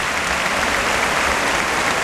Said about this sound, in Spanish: Mira la plaza en pie, tocando a ovación a la banda.